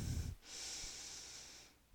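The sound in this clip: Breathing during a yoga flow: one long, airy breath hisses steadily for over a second after a short low rumble at the start. It is faint and heard alone, with no talking.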